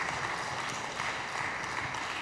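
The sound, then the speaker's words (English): Soft, steady applause from a church audience at a Christmas morning service, clapping for the children who opened envelopes; an even wash of clapping throughout with no voices. “Can we give all our little envelope openers a round of applause?”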